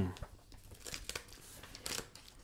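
A paper envelope is torn open in a few sharp, brief rips and crinkles, separated by quieter gaps.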